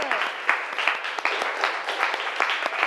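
A class of students claps to encourage classmates during a reading lesson, a brisk, irregular patter of many sharp claps that keeps a fairly even level for about three seconds.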